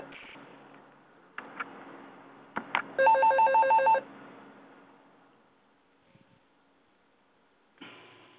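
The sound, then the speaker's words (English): A mobile phone ringing: one bright, electronic trilling ring of about a second, with a few soft knocks before it and quiet afterwards. “That was my phone ringing.”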